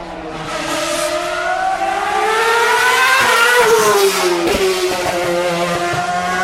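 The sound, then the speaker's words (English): A 2009 Ferrari F60 Formula One car engine screams loudly and without a break. Its high, harmonic whine climbs steadily in pitch, drops sharply, then rises again through several short dips. “Marc Genet in the Ferrari F60 from 2009.”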